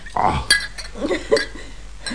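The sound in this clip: Glasses of whisky clinking together in a toast: a bright, ringing clink near the start and a fainter one at the end, with soft voice sounds and handling noise in between.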